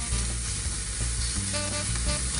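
Sausage and egg scramble sizzles in a pan with a steady, dense crackling hiss that holds evenly from start to finish, with no talk over it.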